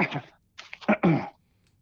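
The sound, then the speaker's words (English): Throat clearing: a few rough, raspy bursts of varying length come one after another, with a short pause between the first and the rest, and no talk alongside. “excuse me, I gotta clear my throat.”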